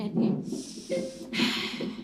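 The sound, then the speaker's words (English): A deep breath taken on request, heard as two long, airy breath sounds, one after the other, moderately loud and close. “Keep going, keep going. Great, you're doing great. Take a deep breath.”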